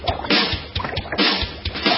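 A bubbling, boiling sound effect opens a Halloween novelty song. Many gurgling, sloshing liquid pops burst in a loud, uneven rhythm.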